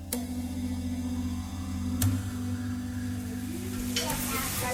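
Food sizzles as a family cooks together at home in West Palm Beach, Florida: a steady, soft frying hiss broken by a few sharp clicks.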